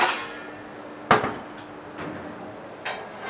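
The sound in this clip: Pizzas topped with tomato, cheese and hot peppers are pushed into an oven. A few sharp knocks and clatters ring out, with quiet gaps between them.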